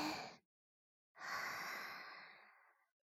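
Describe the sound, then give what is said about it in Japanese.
A slow, airy breath during a breathing exercise: the brief tail of one breath, a pause, then a long, soft breath drawn for nearly two seconds, quiet and alone. “じゃあ、続けてみましょうか。はい、じゃあ吸って。”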